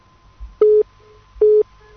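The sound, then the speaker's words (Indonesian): Two short, steady electronic telephone tones, evenly spaced, as a line rings for an incoming call; each beep is brief and mid-pitched, with a faint low hum between them. “Kita langsung menyapa untuk penelpon yang saat ini sudah berdering.”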